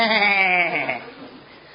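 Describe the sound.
A sheep gives one long, wavering bleat, loud and nasal at first, then fading away during the second half.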